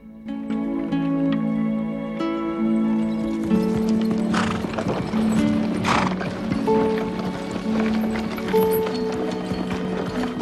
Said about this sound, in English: his plough drawn by two sturdy Shire horses.